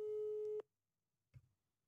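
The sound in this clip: A telephone line signal sounds while a call is placed, a single steady mid-pitched tone lasting about half a second, then silence broken by one short, soft thud.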